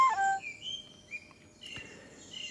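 A song thrush sings in duet with a transverse flute: a few clear, high whistled phrases and sustained tonal notes, fairly faint, with no talk.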